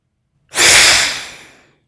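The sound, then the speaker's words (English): A long, deep breath taken during a breathing exercise: a single loud, airy rush that starts abruptly after a brief silence, then slowly tapers away over about a second. “And again, same side, exhale. Long, deep inhale. And last time.”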